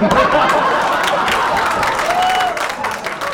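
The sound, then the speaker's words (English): Supporters of a candidate cheer and applaud at a debate-watching event, a loud, dense, sustained roar of clapping and crowd voices that eases slightly near the end. “That is the sound of Trump supporters cheering on their candidate last night during that debate.”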